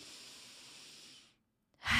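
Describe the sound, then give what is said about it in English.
One deep inhale during a guided breathing exercise: a steady, soft airy hiss held for more than a second, then silence before a louder sound starts at the end. “Let's breathe in.”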